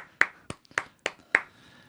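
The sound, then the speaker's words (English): Polite applause comes as five slow, sharp, evenly spaced claps. Each is crisp and isolated and is followed by a brief silence. “The polite applause.”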